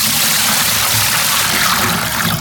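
Liquid pours out of a container holding 5.5 liters in a continuous, hissy, splashing stream. It stays loud throughout and dips slightly at the very end.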